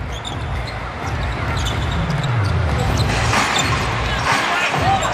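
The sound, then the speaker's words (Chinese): A basketball is bounced a few times before a free throw in a game, the dull thuds sitting under steady crowd noise and a commentator's voice. “由滨州队罚球。”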